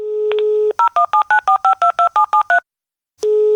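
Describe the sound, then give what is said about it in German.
Dialling of a telephone number for a call in Thuringia: a steady dial tone with a soft click, then a rapid, even string of short two-pitch keypad beeps, a brief silence, and the steady tone returning. “Ein Anruf in Thüringen.”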